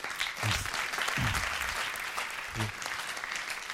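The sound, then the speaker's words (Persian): Audience applause fills the whole clip: a dense, steady patter of many hands clapping with no clear break, staying at an even, fairly loud level throughout. A few low vocal sounds briefly poke through the clapping. “تشویقشون میکنی؟”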